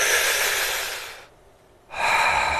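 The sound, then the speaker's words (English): Slow, deep belly breathing: a long, loud airy breath that fades away, a short near-silent pause, then a second breath starting strongly. “you push out with your stomach when you breathe in and relax. And if you count it in for 5”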